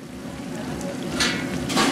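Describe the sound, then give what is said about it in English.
Tortilla pieces deep-frying into chips by the hundreds at Costa Chica, a Mexican restaurant: a dense, steady crackling sizzle runs throughout and swells slightly louder toward the end. “At Costa Chica restaurant, hundreds of pieces of tortilla are being fried into chips.”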